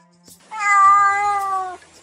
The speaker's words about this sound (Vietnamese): Mèo con rất xanh mảnh, giả bộ vừa đáng yêu vừa đáng thương, nhưng tiếng mèo kêu ra lại bảo hắn là người xấu.